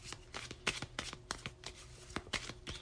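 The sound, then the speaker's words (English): Lenormand cards being shuffled during a card reading: many quick, faint rustling riffles and soft snaps in an uneven rhythm, with no other sound. “Let me pull some Lenormand cards here to see if we can get a clear, direct message.”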